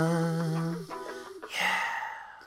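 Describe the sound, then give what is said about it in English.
Breathing into a microphone: a low, voiced sigh-like tone gives way to a loud, airy rush of exhaled breath that fades at the end. “That bit where you just breathed into the microphone”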